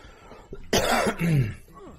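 Harsh coughing into a microphone, in two loud, rough bursts close together with a short throat-clearing rasp at the end.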